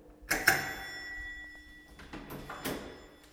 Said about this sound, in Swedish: Så nu tänker jag ringa på här.